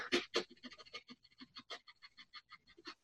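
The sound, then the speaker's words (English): Rapid breathing through the nose, many quick, even sniffing puffs in a steady fast rhythm, each inhale and exhale a short airy hiss, moderately quiet and with no talk. “So just breathe as fast as you can through your nose like this.”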